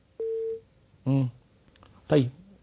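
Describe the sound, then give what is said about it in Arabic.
A telephone call cutting off: one short, steady electronic tone sounds, then two brief bursts of voice follow with quiet gaps between. “عفوا الاتصال القطع”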